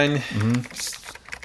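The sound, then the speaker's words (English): Typing on a computer keyboard comes as a quick run of light, uneven clicks right after a short spoken phrase, as a beer's price is entered. “Let me type that in there.”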